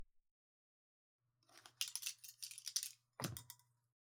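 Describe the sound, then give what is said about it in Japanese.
Scissors trimming thinned hair with a second pair: quiet, crisp snipping in two bursts, a longer run of rapid cuts and then a short one, over a faint low hum. “さて、すいた髪を別のハサミで整えてまいりますね。”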